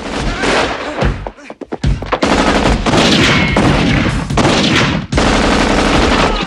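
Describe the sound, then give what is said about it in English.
Automatic assault rifle fire rips through a film action scene as a gunman cuts down gangsters, loud and sustained rapid bursts with a couple of brief breaks in the shooting. “Mark uses his automatic assault rifle. A man bursts in. Mark guns him down.”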